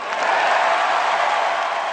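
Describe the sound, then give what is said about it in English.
Applause from a crowd at a political convention, dense, steady clapping that stays loud for the whole two seconds. “But there was less applause when Edwards stated, quote, "We will win the war in Iraq."”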